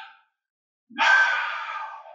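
A person demonstrates exhaling with one long, breathy outward breath. The airy hiss starts abruptly after silence and slowly fades.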